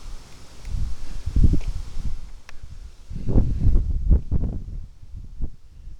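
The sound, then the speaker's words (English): Strong wind buffets in rough, rumbling low gusts that swell and fade repeatedly, with no voices. “Bad wind up here.”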